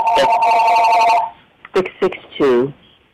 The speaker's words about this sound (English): Someone please turn off that phone.